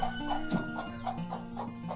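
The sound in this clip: A broody hen clucks steadily as she settles onto a clutch of duck eggs she has been sitting on. The soft, rhythmic clucks repeat many times over a low, continuous murmuring drone.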